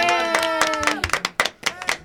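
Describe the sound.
Scattered hand clapping from an audience applauding a man's birthday: a few sharp, uneven claps that grow more distinct in the second half, following a sustained tonal sound at the start.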